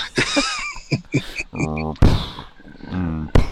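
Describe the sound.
A freezer door being closed, giving a dull, solid thunk amid people talking.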